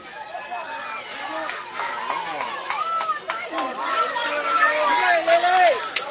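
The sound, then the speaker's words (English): A home crowd at a baseball game makes a steady swell of cheering and chatter that grows slightly louder toward the end, with a voice speaking over it. “And Washington County making some noise here.”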